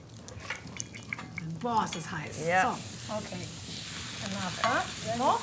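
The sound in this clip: Butter sizzles and is stirred in a pan in a forest cabin kitchen, a steady frying hiss with scraping strokes of the utensil running throughout.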